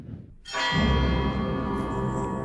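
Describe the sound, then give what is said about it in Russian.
A famous church bell peal in a 2015 opera theatre recording rings out after a faint murmur: a loud, rich bell clang with many overtones, which keeps ringing steadily to the end. “Давайте напомним себе, как звучит этот, может быть, самый известный колокольный звон.”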